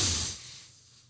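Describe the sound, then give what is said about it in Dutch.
A group of people breathing in together during a guided breathing exercise, heard as a broad, airy hiss that is loudest at the start and fades away over about a second. “Ik zie al, ik hoor al mensen ademhalen”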